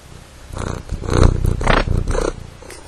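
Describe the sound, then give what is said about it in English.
A domestic cat purrs right beside the recorder in a post and beam house, a low, steady rumbling whose loudness swells and eases over a few seconds, with no talk. “as soon as I held the recorder near him, he stopped and said hi and started to purr.”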